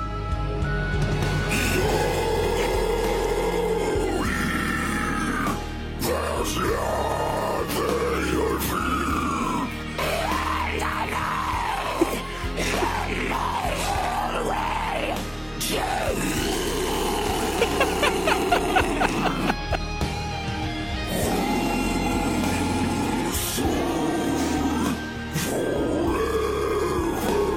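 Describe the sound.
Deep, guttural growled singing in a heavy cover of a famous film ballad, rough and roaring over steady band backing, with short pauses between the phrases.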